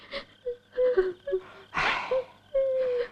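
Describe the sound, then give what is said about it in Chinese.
A mother and child crying together: a string of wailing, whimpering sobs with sustained tonal cries, broken by one broad gasping burst midway, moderately loud and without speech. “别哭了，你们娘俩没完了，我这跟客官们都没法说话了。”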